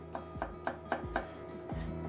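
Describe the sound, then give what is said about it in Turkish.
A knife chops fresh garlic on a board, landing about six crisp, faint strikes at a steady pace with a short pause before the last one, no voices. “Şöyle sarımsağı doğruyoruz.”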